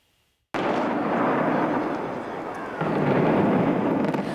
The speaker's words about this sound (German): Heute, vor 25 Jahren, wurde der Kaiserbau gesprengt.